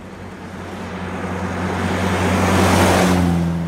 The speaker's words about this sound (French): Voilà, on retourne sur le parking.